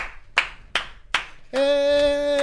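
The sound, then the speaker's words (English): Three sharp hand claps ring out in an even rhythm, followed by a steady, sustained tone. “I'm gonna give it a clap. Why are we clapping?”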